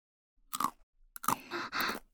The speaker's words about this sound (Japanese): 休憩だって言ってるのに、バリバリ食べすぎだって。